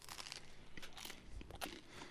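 A crunchy caraway beer stick pastry from a bakery being bitten and chewed, giving faint, dry crackling crunches in irregular bursts.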